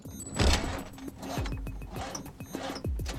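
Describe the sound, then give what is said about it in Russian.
A car engine being cranked in repeated attempts to start, a run of quick whirring starter pulses, each dropping in pitch, fairly faint throughout with no voices. “делает попытки завести машину”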